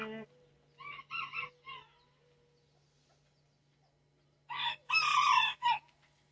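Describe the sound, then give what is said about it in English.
Rooster crowing from a flock of chickens and ducks, heard as two loud bursts of raspy, harmonic calls separated by a quiet gap. “Lots of chickens and ducks quacking.”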